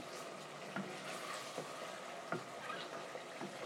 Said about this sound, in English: Judging by things, the mince and all's cooking away there very well. Now it's starting to bubble, but I'll just keep stirring it anyway